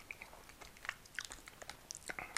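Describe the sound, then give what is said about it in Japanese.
Crunchy chewing of fermented-butter-flavored coconut shortbread biscuits made by Nissin Cisco: many small crisp bites and crumbling clicks in an irregular rhythm, faint overall. “今食後のおやつココナッツサブレを食べてます”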